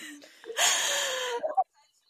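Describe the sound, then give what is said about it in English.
A group takes a deep breath together, a soft breathy rush of air lasting under a second, followed by a brief burst of laughter before it falls quiet. “Just take a little deep breath together.”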